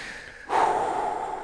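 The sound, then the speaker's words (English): A big exhale, a breathy rush of air that starts abruptly and holds steady as a sustained, airy hiss. “Give me a nice big exhale.”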